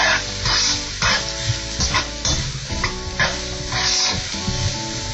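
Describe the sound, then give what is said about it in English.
Onion stirred and fried in a pan until brown, giving a steady loud sizzle with repeated scraping stir strokes running through it. No voices are heard. “You stir that around for a few minutes until the onion's brown.”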